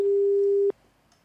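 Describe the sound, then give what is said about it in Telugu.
After a dropped phone call, the line gives a single steady mid-pitched electronic tone that holds for under a second, then cuts off into near silence. “Hello, call cut అయిపోయింది.”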